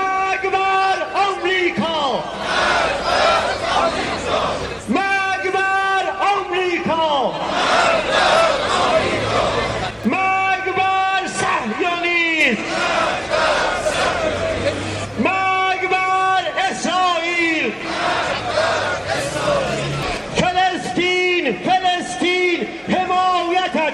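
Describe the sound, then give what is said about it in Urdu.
Massed crowd at an Al-Quds Day rally in Iran chanting slogans against the United States, Israel and imperialism: loud, rhythmic bursts of many voices in unison, repeating one after another throughout without a pause. “Rally کے شرکا امریکہ، اسرائیل اور عالمی سامراج کے خلاف فلک شگاف نعرے لگا رہے تھے۔”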